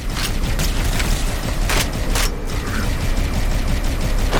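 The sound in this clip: Gunfire aimed at a tank in a video game. Loud, unbroken rumbling bursts and booms, with a few sharper cracks standing out along the way.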